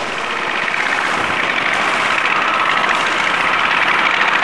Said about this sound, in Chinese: 骑着他心爱的小摩托，我们的主人公玉儿饼抵达市场。